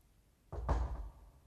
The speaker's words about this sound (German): knallt die Tür zu